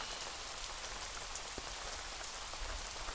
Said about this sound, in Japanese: 雨もひどいですし